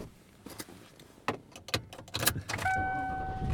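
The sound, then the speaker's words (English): Car sounds before a drive home from work: a scatter of sharp clicks and thumps, like keys and door handling, then a steady high electronic chime lasting about a second, with no talk. “And I am driving home.”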